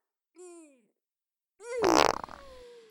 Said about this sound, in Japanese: 今度は左の握りっぺ。新鮮なうちにたーんとお上がってくださいまし。